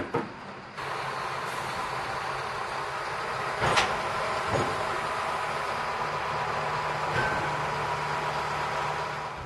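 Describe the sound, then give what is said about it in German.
A shunting tractor moving a train at a port ferry station gives a steady low engine drone, broken by a few sharp metallic clunks; no one talks. “Im Hafen erwartet uns wieder der Rangiertraktor. Er wird den Zug auf das schwedische Festland und in den Fährbahnhof Trelleborg rangieren.”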